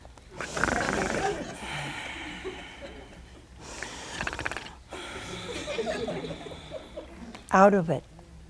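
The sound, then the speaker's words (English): A man's voice imitates the snoring of a sleeping man with a few rough, breathy snorts in a slow, uneven rhythm, fairly quiet throughout. “So Adam fell sound asleep, and he was snoring.”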